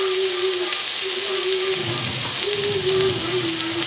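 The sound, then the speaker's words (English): Onions, bell pepper and garlic sizzle in a pan as they are stirred, giving a loud, steady frying hiss that carries on without pause. “So right now I'm just doing the onions and the bell pepper and the garlic. And I'm gonna stir that around.”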